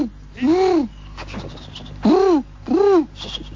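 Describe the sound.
A voice imitates pigeons cooing: three throaty, arched hooting coos, each rising then falling in pitch, separated by short pauses.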